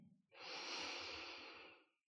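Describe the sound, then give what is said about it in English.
A single slow breath drawn in during a guided meditation, a soft, airy inhale that swells and holds for about a second and a half before fading to silence. “Close your eyes. Breathe in”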